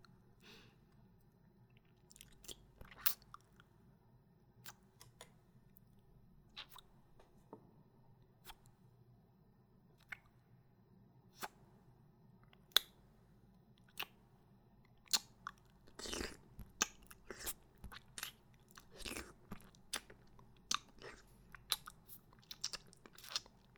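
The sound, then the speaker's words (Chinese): Someone chews and bites into food with faint, crisp crunches. The bites come at an irregular pace throughout and grow more frequent toward the end, over a quiet background. “外面的已经舔干净了，这里面的也让我吃吧。”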